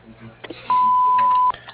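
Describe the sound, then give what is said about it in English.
A voicemail beep on a general contracting business's answering machine: one steady, mid-pitched electronic tone lasting under a second, sounding after a brief, faint voice. “Please leave a message at the end of the beep.”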